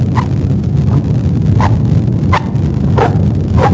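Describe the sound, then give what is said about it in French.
Footsteps walking on beach sand: regular, soft crunching steps keep an even rhythm over a steady low rumble of background noise, with no voices. “c'est le bruit des pas sur le sable de la plage, ce n'est pas un chien.”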